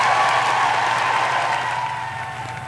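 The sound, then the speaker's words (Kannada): Applause for listeners who answered correctly in a film quiz: a dense, even wash of clapping that starts full and slowly fades toward the end, with no voices over it. “ಯಾರ್ಯಾರು ಸರಿಯಾದ ಉತ್ತರ ಕೊಟ್ರಿ ಅವರಿಗೆ ನಮ್ಮ ಚಪ್ಪಾಳೆ.”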